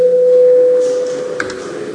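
The voting bell in the Latvian parliament (Saeima) rings as one loud, steady electronic tone. It holds for about a second, then fades out.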